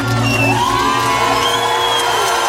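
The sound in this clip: A concert audience cheers loudly and steadily after a live music set, with whoops and shouts rising over a dense crowd roar and a low hum beneath.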